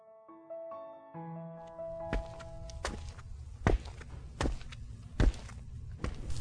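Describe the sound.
Heavy boots strike metro station stairs in a series of loud, evenly paced thumping footfalls. A few soft sustained musical notes open before the steps begin.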